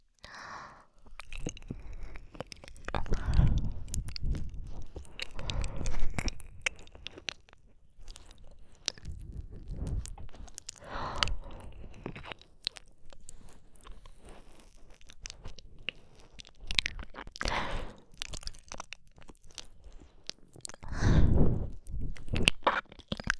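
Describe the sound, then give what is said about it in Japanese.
Wet ASMR tongue licking traced along the ear: rough, rasping mouth sounds arrive in many intermittent bursts of changing loudness, with soft squishy clicks between them. “耳をなぞる舌のゾリゾリとした刺激、心地よく感じていただけてますでしょうか。”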